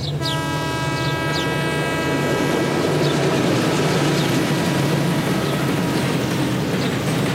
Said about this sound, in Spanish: Grité sorprendida cuando vi los primeros vagones del tren, que aún estaba lejos.